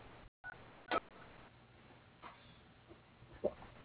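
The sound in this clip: Faint telephone keypad tones enter letters of a name into a company directory phone menu, a few short separate beeps spread across an otherwise quiet, hissy line.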